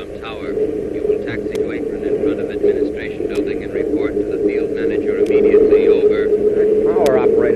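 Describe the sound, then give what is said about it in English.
An airplane taxies with a steady, low engine drone that grows slightly louder toward the end, while people talk over it. “Looks like he's going to taxi right up to the same place we are.”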